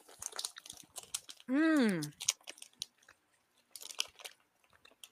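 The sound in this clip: Faint, irregular crunching comes from someone chewing a crunchy apple-flavoured snack, both before and after a short voiced hum, with soft talk around the bites.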